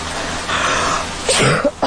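A woman sneezes in one short, loud, explosive burst, followed by a couple of smaller breathy bursts, after a faint breathy hiss.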